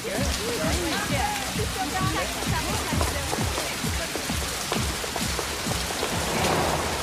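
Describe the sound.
Steady rain falls on a city street: a dense, continuous patter with many sharp drop-like hits, loud and unbroken from start to end.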